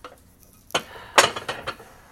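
Bowls and dishes clink as they are unloaded, giving a few sharp, bright ceramic knocks after a quiet start, the loudest near the middle and the last ones slightly fainter.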